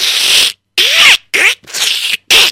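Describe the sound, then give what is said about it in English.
Fabric rips as a jacket is torn apart, with its sleeves and lining pulled out. There are five loud, raspy tearing bursts, separated by brief silences, and no talk is heard. “What, what are you doing in my jacket? You're ripping apart the sleeves. Oh no, what are you doing? You're ripping out the lining.”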